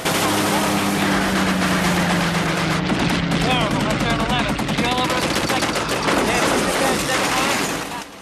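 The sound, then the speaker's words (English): Aircraft turret machine guns fire at enemy fighters during an air battle, a rapid, continuous, loud rattle of bursts with voices shouting over part of the gunfire. “In the top turret, Verge is firing at the enemy. The crew fire at random from their various positions.”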